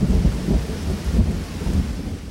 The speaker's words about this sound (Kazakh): Кішкене шатырды екпіндей соғып жұлқып-жұлқып өтеді. Жаңбыр күшейін деді. Шелектеп теуіп тұрғандай.